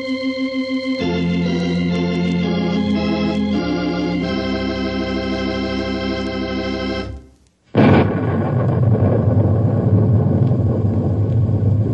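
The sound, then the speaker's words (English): Thunder rumbles in loud and broad after a stretch of sustained musical tones breaks off, rolling on steadily for about four seconds without fading. “I'm sure you recognize that sound you just heard. In fact, you can still hear it a little bit, I guess. It's thunder.”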